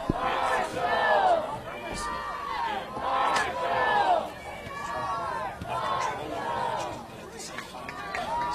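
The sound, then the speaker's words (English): Marshall football fans chant the Marshall chant, a crowd of voices repeating rhythmic shouted bursts again and again, with lulls of general crowd noise between them. “You hear again the Weehaw Marshall chant. You hear it many times here.”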